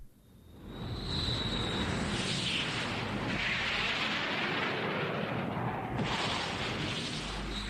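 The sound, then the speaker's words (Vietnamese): Aircraft engine starting up for takeoff: a loud, broad roar swells within the first second, then holds steady and sustained to the end, with a high whine that fades in and out early on. “Chuẩn bị bay. Khởi động máy. Xuất phát.”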